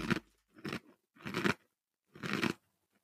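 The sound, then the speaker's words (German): Someone bites and chews a cookie: four crisp, crunchy bursts separated by short pauses, the last after a longer gap, close and fairly quiet with no talk. “Und der Keks ist allerdings gut. Ja, der schmeckt wirklich lecker.”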